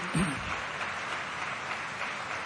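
Audience applause: a steady, dense wash of many hands clapping continues at a fairly faint level, with a brief low thump near the start.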